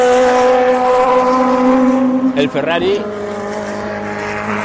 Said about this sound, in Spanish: Mira, está bajando la Toyota. El Toyota suena Bronco, pero no suena rápido.